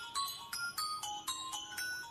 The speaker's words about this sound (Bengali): mobile ফোনটা বেজে উঠল